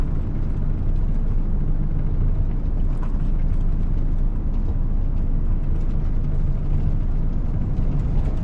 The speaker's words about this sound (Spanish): Los cuatro viajan en coche por una carretera rodeada de un paisaje desértico.